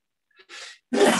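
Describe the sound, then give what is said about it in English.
A person sneezes once, loud and explosive, after a couple of quick, faint catching inhales. “I'm going to sneeze real quick. Going to edit that part out.”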